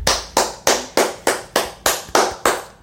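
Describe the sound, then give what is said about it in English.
Hand clapping offered as applause for a Buffalo receiver's strong game: a steady, evenly spaced run of sharp, bright claps about a third of a second apart, each decaying quickly, loud and alone with no talk. “round of applause for you, Diggs.”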